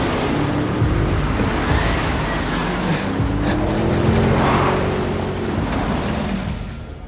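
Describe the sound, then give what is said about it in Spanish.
Engines of a convoy of cars drone steadily as the vehicles leave the road and stop, a low mix of motors with shifting tones, softening a little near the end. “La comitiva de coches abandona la carretera y se detiene junto a los hombres.”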